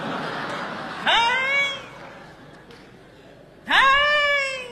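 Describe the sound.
A voice imitates a cat yowling in a comedy routine: two drawn-out, wavering yowls separated by a pause, the second as loud as the first.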